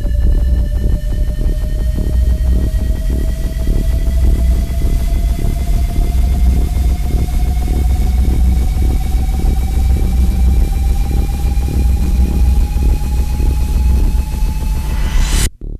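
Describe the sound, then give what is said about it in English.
A sci-fi jump drive powering up as a sound effect: a heavy rumbling drone under a thin whine that climbs slowly and steadily in pitch for about fifteen seconds, staying loud throughout, then cuts off abruptly. “activating jump drive.”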